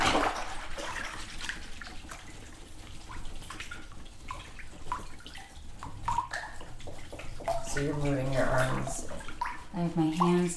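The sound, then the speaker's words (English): Water rinses the last bits of paper pulp off the sides of a vat or bucket, a steady splashing, trickling wash that runs throughout, with a voice faintly heard toward the end. “Just rinsing down the sides of the vats or the bucket to get the last bits of pulp.”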